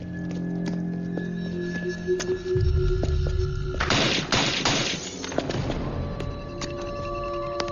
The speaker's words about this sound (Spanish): ¡Hay disparos! ¡Hay disparos!